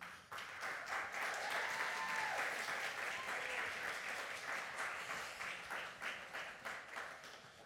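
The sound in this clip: Sustained applause from an audience welcoming two guests at a community gathering: dense, steady clapping that swells quickly at the start and holds loud throughout, thinning slightly toward the end.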